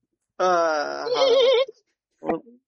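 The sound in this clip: A human voice imitates a mare neighing, giving one sustained, quavering whinny that wavers in pitch for over a second, followed after a pause by a short grunt-like snort.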